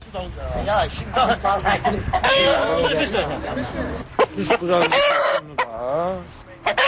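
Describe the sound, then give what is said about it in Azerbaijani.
Roosters cluck and crow at a village cockfight held during Novruz festivities in Maştağı near Baku, with dense, continuous squawking mixed with crowd chatter and voices throughout. “Bakı kəndlərində Novruz kəndliklərinin əyləncələrindən olan xoruz, it döyüşdürməsi mərasimləri hələ də qalır.”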